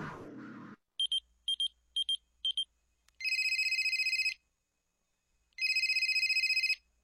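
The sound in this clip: A telephone rings: four short electronic beeping bursts come first, then two long, loud buzzing rings separated by a silent pause.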